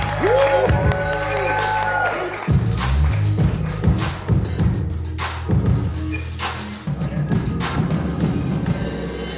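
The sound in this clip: Audience applause and cheering at a live show recording at the House of Culture in Salt Lake City during All-Star Weekend 2023: steady clapping with shouts and whoops, mixed with voices and loud throughout.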